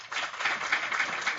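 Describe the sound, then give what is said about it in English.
Faint scattered clapping from an audience, a light, brief patter of hands with small uneven peaks, quiet and short-lived. “And if you think the artificially cultured red cells is fiction,”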